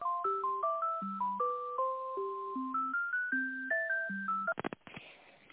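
An electronic telephone tune plays while a call is transferred to a director: a simple melody of stepped single beeping tones at even pace, ending with a few sharp clicks.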